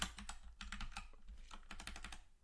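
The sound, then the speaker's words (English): Faint, rapid clicking of keys on a computer keyboard as someone types in a football score, with many keystrokes falling in quick irregular clusters. “I got to type in the score”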